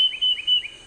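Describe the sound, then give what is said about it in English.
Song of a tufted titmouse: three quick, clear whistled phrases repeated in an even rhythm, each a high note slurring downward, heard alone. “That's the song of the tufted titmouse.”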